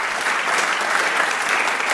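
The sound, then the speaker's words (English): An audience applauds a lecture, with dense, steady clapping that stays even and fairly loud throughout. “Did you hear the applause for your lecture?”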